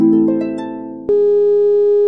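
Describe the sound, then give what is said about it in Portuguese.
A telephone line tone sounds after a caller hangs up. A buzzy harmonic hum fades slightly, then a sharp click about midway switches to a steady, loud, continuous tone. “Desligou na minha cara de novo, ó.”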